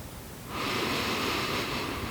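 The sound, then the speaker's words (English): Slow deep inhale during a breathing exercise: after a brief quiet moment, a steady, airy rush of breath begins and holds evenly, fairly loud, until the end. “And make the noise until there is nothing left. Silence. Inhale.”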